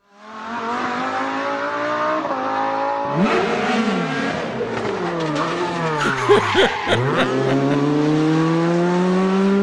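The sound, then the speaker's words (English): A V10 car engine revs hard in a marketing video, the sustained roar surging and dropping in pitch several times, with sharp rises and falls of revs around the middle before settling into a steady high drone. “That is not an M2. That is not an M2. That is a V10.”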